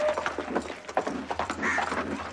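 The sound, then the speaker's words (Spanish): Hooves of a horse ridden by a British officer in a beige uniform toward a railway station in a rural town, a dense run of irregular thudding beats under a steady wash of background noise. “Un oficial británico con uniforme beige y Salakov cabalga hacia la estación.”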